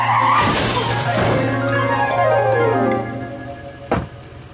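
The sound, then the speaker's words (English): A car skids at night and hits a pedestrian: a loud crash-like burst and a squealing tone that slides downward, then one sharp hit near the end. “it all started one night when I was looking at the Christmas lights, and I ran over a homeless person”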